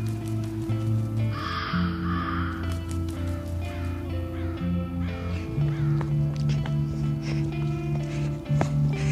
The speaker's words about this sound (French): C'est juste eux. Les grands oiseaux. Mes petits anges.